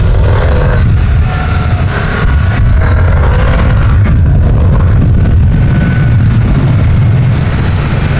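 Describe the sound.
A motorcycle engine runs loudly and steadily, a dense continuous rumble with no breaks or talking over it.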